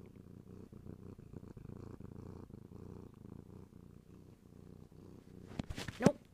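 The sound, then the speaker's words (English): A pet cat purring, a faint, low, steady rhythmic rumble that continues throughout, with a brief, louder burst of noise near the very end. “You guys, hold on. That's my cat.”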